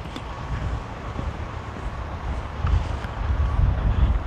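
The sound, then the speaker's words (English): Wind blowing outdoors on a chilly morning: a steady, rough rush of noise with a low rumble that grows stronger through the second half. “The wind wasn't blowing when I started. It's picked up since I've been out.”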